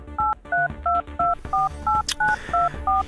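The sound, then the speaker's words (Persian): Telephone keypad tones ring out as a number is dialed: nine short dual-pitch beeps in a quick, even rhythm, each at a slightly different pitch, fairly clear over quiet background noise. “بذار من شماره این خلوچلو بگیرم.”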